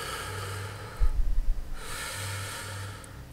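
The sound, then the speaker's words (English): A deep breath drawn in during a calming breathing exercise, heard as one short, loud, rushing intake with no talk. “Deep breath in.”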